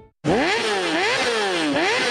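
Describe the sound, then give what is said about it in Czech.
A racing buggy's engine bursts in after a moment of silence, a loud buzzing roar whose pitch climbs and dips again and again as it revs. “Nejlepší dárek pro chlapa je jízda v závodní bugině.”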